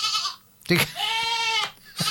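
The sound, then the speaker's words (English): Goats bleat: two loose goats at a bus station. A long, wavering, nasal bleat is set between short, harsh bursts of noise, and loudness rises and dips throughout. “District of Oregon said on social media that a 911 call came in reporting two goats wandering loose at the FX2 bus station.”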